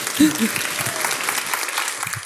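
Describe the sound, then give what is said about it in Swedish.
An audience applauds at a live stage show, a dense, steady clatter of many hands clapping. A voice is briefly audible near the start. “En stor applåd!”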